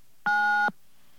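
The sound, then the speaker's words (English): A single telephone keypad tone, the digit 9 pressed to accept a collect call, sounds as one steady electronic beep lasting about half a second, alone on a quiet line. “To accept the call, please dial 9 now.”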